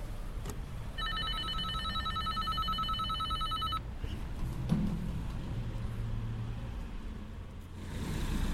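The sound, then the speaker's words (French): An apartment door intercom rings with a pulsing electronic tone lasting about three seconds, then falls silent over a steady low rumble. “c'est parti, je vais sonner. Alors, je suis bien au numéro 7, c'est ça. Je sonne.”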